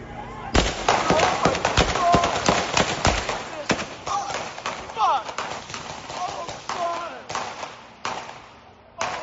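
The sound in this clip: Sharp gunshots ring out in a rapid burst of many loud cracks, then fire more sparsely as a voice speaks over the shooting.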